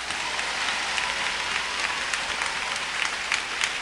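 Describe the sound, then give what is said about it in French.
An audience applauds for Jesus during a church service: steady, dense clapping from many hands that keeps an even level throughout. “Bat bravo pou Jezou la.”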